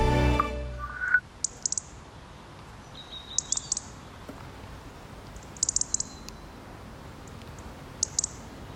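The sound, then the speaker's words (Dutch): Song of a common garden bird: a few short bursts of high, thin chirps spaced apart over a quiet background, fairly faint and with no talk. “Zelfs in de meest stadsige stadstuintjes kun je dit vogelgeluid nog horen.”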